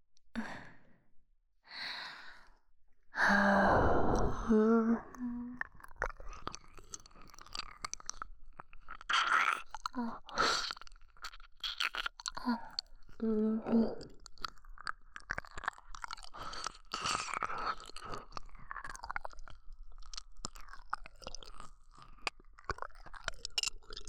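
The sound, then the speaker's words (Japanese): Wet licking and slurping mouth sounds of close-mic ear-licking ASMR repeat in irregular clusters, with breathy sighs early on and soft smacks continuing throughout. “お耳もレロレロして”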